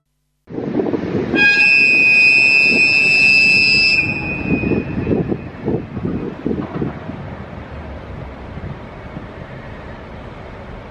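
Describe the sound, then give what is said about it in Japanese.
The Norokko sightseeing train sounds a long, loud, high horn blast as it departs platform 3 at Kushiro station. Heavy rumbling and a rhythmic chugging follow as it pulls away, gradually easing. “でまずは釧路の駅を、出発するノロッコ号をちょっと聞いていただきたいと思います。”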